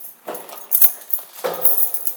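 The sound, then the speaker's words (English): Sharp clicking sounds, made to check whether a door ahead is open, come as a few faint, crisp, irregular clicks separated by quiet gaps. “Folks, clicking like that is not usually recommended, but I had no way of actually knowing if that door was open.”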